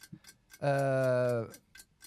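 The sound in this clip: A clock ticks at a steady, fairly quick pace throughout. A sustained, smooth tone swells over the ticking in the middle and then stops.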